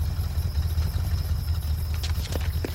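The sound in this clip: A truck engine running, a steady low rumble that holds at an even level throughout, with a few faint, sharp clicks near the end.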